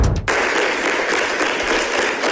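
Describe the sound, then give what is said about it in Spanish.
Applause at the Cartagena city council for the mayor after a censure motion failed, a steady, even wash of clapping that begins after a brief sound at the start and carries on to the end. “Aplausos y lágrimas. Acaba la moción de censura en el Ayuntamiento de Cartagena, que no ha salido adelante por un voto, pese a las dos ausencias de María Dolores Ruiz y de Diego Salinas, uno de los concejales tránsfugas. El aplauso es para la alcaldesa”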